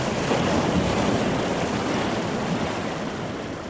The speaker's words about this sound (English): the Severn bore, a tidal surge caused by the funnel shape of the Severn and the enormous difference between its high and low tides, as much as 50 feet. The wave travels upstream, against the current.